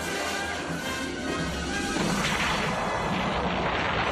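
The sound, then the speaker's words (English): A volcano erupts in a film, giving a loud, continuous roaring rumble with crashing noise that grows slightly stronger in the second half. “It's a volcano going off, caused by him.”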